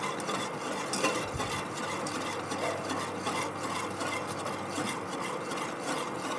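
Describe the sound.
Steady scraping and swishing of a cooking gel mixture being stirred quickly in a pot over raised heat so it doesn't clump. The gel is made from a natural ingredient. The rubbing noise runs continuously without pause, and no voices are heard.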